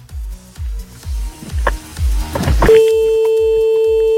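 Telephone ringing tone while calling a man: a series of rhythmic thumping pulses gives way to one long, steady, mid-pitched ringing tone that holds to the end.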